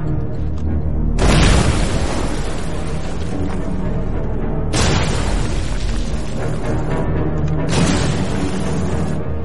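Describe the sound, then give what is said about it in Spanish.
Grenades explode after being thrown through the windows of deserted houses in a city during a Second World War battle. Three heavy booms burst out over a loud, continuous low roar. “lanza granadas por las ventanas”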